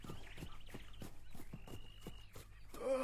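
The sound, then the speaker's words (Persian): Hooves of several horses carrying approaching riders clip-clop in a quick, steady rhythm, many crisp strikes following one another with no break. “ها؟ آنها که هستند؟ تعداد سوار به این سو می آیند. یعنی که هستند؟”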